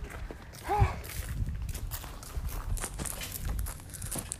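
Footsteps crunch along an ordinary gravel path, many steady steps at a walking pace with a rough, grainy texture and no talking.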